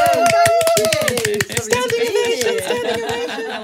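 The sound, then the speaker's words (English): Studio audience applause greets an arriving guest as a standing ovation: dense, crisp clapping with voices rising over it, thinning briefly midway before carrying on at a slightly lower level. “Standing ovation. Oh, wow.”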